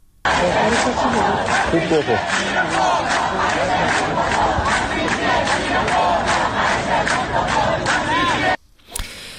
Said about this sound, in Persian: در قزوین هم دانشجویان دانشگاه آزاد در واحد باراجین روز یکشنبه با سر دادن شعار به اعتراضات خودشون ادامه دادند.